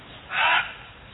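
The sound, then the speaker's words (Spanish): A single hoarse, rasping crow caw rises out of faint background hiss, lasting about a third of a second. “El cuervo. Enronquece su graznido para anunciar la fatal entrada de Duncan”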